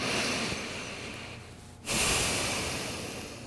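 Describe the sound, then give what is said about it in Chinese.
Deep breathing during a guided stretching exercise. A long, airy breath fades away, then a strong new breath starts abruptly and slowly tapers off. “然后做3次深呼吸”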